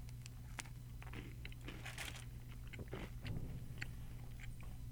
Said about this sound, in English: So I'm going to talk and with food in my mouth or beverage in my mouth here and taste some of this chocolate cookie.